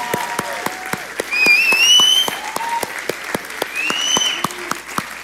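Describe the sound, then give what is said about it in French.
A church audience rises in a standing ovation, clapping loudly and steadily in an even rhythm, with high-pitched cheers or whistles cutting through the applause. “J'aimerais qu'on se lève, qu'on donne une ovation à Dieu. D'accord? Très fort!”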